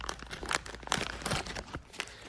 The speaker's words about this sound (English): So let's take a look at the pack. And let's open it.